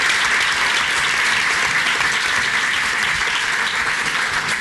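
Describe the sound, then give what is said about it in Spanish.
Audience applause welcoming a guest: dense, loud clapping that holds evenly for the whole stretch without any break. “le damos la bienvenida también con un aplauso, yo creo que sí.”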